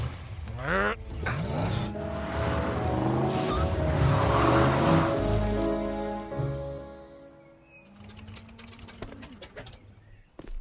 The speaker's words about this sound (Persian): دیگه هیچکی کاری نداره، فقط ماشینه. یکی دیگه داره میاد، انگار یه استیشنه.